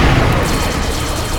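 Naval guns firing a salvo at targets make a loud, dense roaring rumble of blasts. The roar holds steady throughout, with no separate shots standing out.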